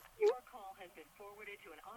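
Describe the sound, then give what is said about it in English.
An automated telephone recording answers a callback. Thin, narrow-band recorded speech plays at low volume, with a short louder burst near the start. “he might have a phone issue because now it's giving me a recording”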